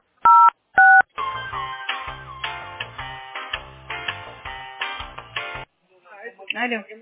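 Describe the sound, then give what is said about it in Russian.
Two short, bright telephone keypad tones dial an extension on a company's phone line, followed by a longer melodic passage and then a brief voice speaking. “Если вы знаете внутренний номер сотрудника, наберите...”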